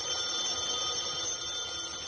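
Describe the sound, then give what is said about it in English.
A telephone rings with a steady, continuous bell tone that holds at an even level from start to finish, with no voices over it. “something rang. So it did. The phone.”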